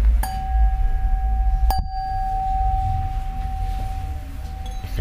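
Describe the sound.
A lead crystal wine glass is tapped, giving a sharp clink and then a pure, high, sustained ring that lingers for several seconds; a second knock sounds while the tone keeps ringing and slowly fades.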